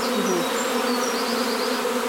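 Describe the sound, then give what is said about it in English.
Many honeybees hum around a hive as a cluster is slowly coaxed inside, with some still in a nucleus box. Their dense, continuous drone stays steady and loud, with thin, higher whining tones drifting in and out above it. “They will, they're very clever bees. But you know, it's slightly lower than it was. But once they all get the message, they will go in.”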